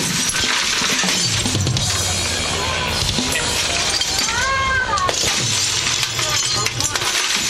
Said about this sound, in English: Quick, smash your TV!